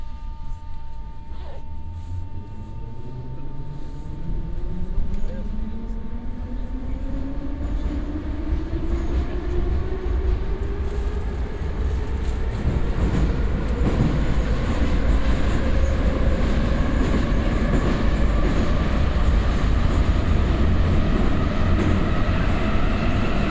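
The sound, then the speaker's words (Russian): A metro train runs between stations with a loud, continuous low rumble and a motor whine that climbs steadily in pitch as it gathers speed. “Станция Площадь Перемоги. Осторожно, двери зачиняются. Наступная станция Площадь Якуба Колоса.”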